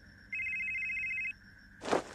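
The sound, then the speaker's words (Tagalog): A telephone rings with an incoming call, one steady electronic ring of about a second with bright layered tones, followed by a short, louder burst of noise. “tumatawag na si Jerry.”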